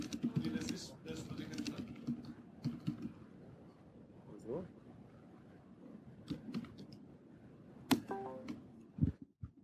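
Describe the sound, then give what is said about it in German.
Computer keyboard typing, with quick clicks in bursts that are densest early on and sparser later, under ongoing talk. “Ich tipp's gerade.”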